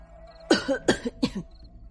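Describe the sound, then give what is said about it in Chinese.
Dry coughs in three short, fairly loud bursts in quick succession, with a throaty, rasping edge. “范闲赶紧干咳了两声”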